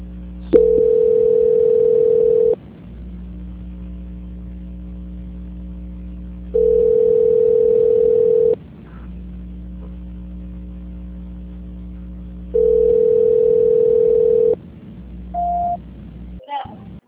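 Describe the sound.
Telephone line tone during a call transfer: three long, steady beeps of about two seconds each, separated by even pauses, over a constant low hum, ending with a short higher beep.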